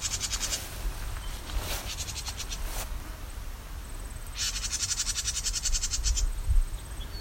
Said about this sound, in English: House wren. It's a scolding behavior.